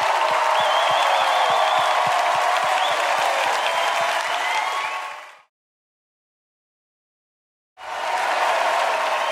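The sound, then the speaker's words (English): A studio audience at a late-night comedy show applauds and cheers in a loud, steady wash of clapping. It cuts off into a couple of seconds of silence, then the applause returns just as full. “You guys are amazing. Give it up for yourselves.”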